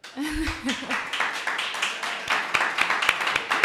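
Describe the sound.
Audience applause at the start of a talk on copyright. A voice speaks briefly, then scattered individual claps pick up and thicken into uneven clapping toward the end.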